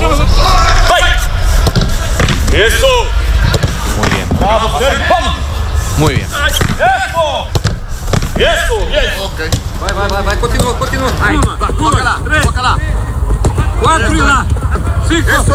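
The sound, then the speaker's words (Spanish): Shouting and cheers of encouragement ring out across a football team's training session, with loud voices calling over a busy, continuous background of movement and occasional ball thuds. “lo primero, como la radio es sonido, este es el sonido de Mourinho entrenando hoy en Valdebebas”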